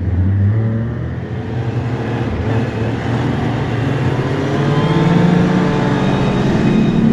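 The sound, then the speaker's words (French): Snowmobile engine carrying two riders straight up a steep ski slope at a ski resort: a loud, continuous motor drone whose pitch creeps gradually upward midway through. “Alors on est sur la, motoneige”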